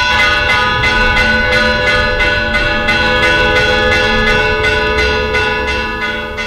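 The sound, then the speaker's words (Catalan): Convent church bells toll an alarm: many loud, ringing strikes in a fast, steady rhythm, their tones overlapping into a sustained metallic clangour that fades slightly toward the end. “Més o manco així sonaven les campanes del convent de Santa Magdalena amb aquest toc d'alarma.”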